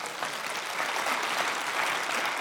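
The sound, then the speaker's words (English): Church audience applauding during a sermon: dense, even clapping from many hands, sustained at a steady level throughout with no voices standing out. “We can clap on that.”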